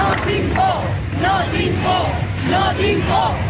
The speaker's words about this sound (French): Suivi d'une longue salve d'applaudissements et d'un slogan scandé par une foule unie.